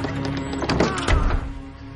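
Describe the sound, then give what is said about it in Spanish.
A door to a house's patio is shut with a single dull thunk about midway, preceded by a brief scrape of movement, in a tense thriller scene. “Va hacia la puerta que da al patio. La cierra.”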